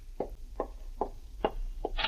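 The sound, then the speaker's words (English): Knocking on the door of a room at an inn, a steady series of evenly spaced, muffled raps about half a second apart over a low background hum. “there's a knock on the door of your room at the inn.”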